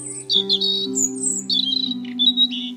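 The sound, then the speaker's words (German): A European robin mother calls to her chick with high, thin chirps and short warbling trills broken by brief gaps. A steady low tone hums beneath the calls. “das ist doch, ja genau, die Rotkehlchenmama. Du verstehst sie.”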